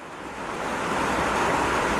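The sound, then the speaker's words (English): Rain falling on a rusted sheet metal roof of a cinder block home in a Cap-Haïtien slum in Haiti, water leaking through cracks, heard as a dense, even hiss that swells slightly and holds throughout. “It's raining in the northern city of Cap-Haïtien, and water drips through dozens of cracks in Mamotte Bien-Aimée's rusted sheet metal roof in the slum of La Fossette.”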